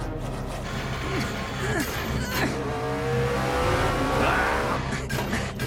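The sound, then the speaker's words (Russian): Race cars in an animated racing film speed through a turn on a track, making a continuous loud engine roar with a shifting whine that stays steady throughout. “А Кинг и Чико его нагоняют. Прошли третий поворот.”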